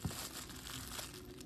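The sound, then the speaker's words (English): A jackfruit being torn apart by hand gives a faint, continuous crinkly rustling that runs steadily through the short moment with no clear breaks. “I just want to tear this part apart. I just want to tear this piece away so that it can be easier to store.”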